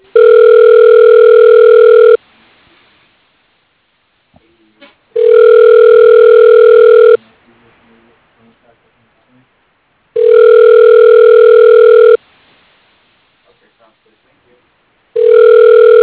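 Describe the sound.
Ringback on a telephone line after a call is dialed: three long, steady, loud tones of about two seconds each, separated by longer silent gaps, then the start of a fourth.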